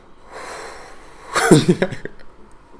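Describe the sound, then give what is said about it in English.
A person takes a deep breath: a soft, breathy intake swells, then a louder, rough, throaty exhale follows in a few uneven bursts before fading. “This man had to take a deep breath. Yeah, I did.”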